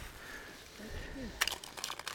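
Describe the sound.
Soft, dry rustling and crinkling, faint and uneven, builds into a cluster of sharper crackles in the second half.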